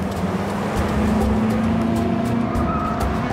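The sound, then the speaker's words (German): A car skidding while aquaplaning on a wet road: a loud, steady engine drone with rushing tire noise that holds level throughout. “Achtung, Aquaplaning. Alles im Griff.”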